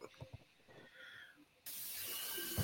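Running water or food frying: a few soft clicks and rustles, then an abrupt, steady sizzling hiss that carries on loudly to the end.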